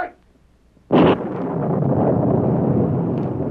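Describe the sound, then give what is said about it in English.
A blasting powder explosion in a mine, loosening shale that tumbles toward a town: a single sudden loud blast breaks out of near silence, then settles into a long, steady roaring rumble that runs to the end. “The blasting powder loosened some more shale. It's tumbling down on the town.”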